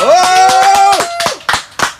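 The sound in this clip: Audience clapping for a performer: regular, sharp claps keep time under a sustained sung note, which ends about halfway through, leaving a few louder separate claps.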